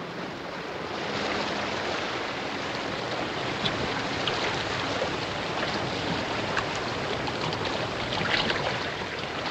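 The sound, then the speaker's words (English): Ocean water rushes and washes as a submarine slips below the waves, a steady, full, roaring surge that holds at an even level throughout with slight swells. “The submarine slowly slips below the waves, causing barely a ripple on the ocean's surface as it does so.”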